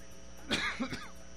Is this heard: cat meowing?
no